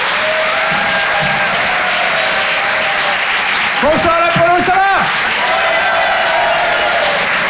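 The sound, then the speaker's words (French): Loud applause and cheering from a Paris comedy club audience welcoming a comedian, dense steady clapping throughout with a burst of whoops and whistles midway. “Je vous demande de faire un maximum de bruit, s'il vous plaît, pour Vincent Cerussi.”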